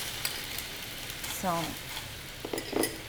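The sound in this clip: Chicken sizzles in a frying pan over low heat while being cooked for teriyaki. A soft, steady crackle runs throughout, with a few utensil clinks and scrapes near the end and a brief voice in the middle.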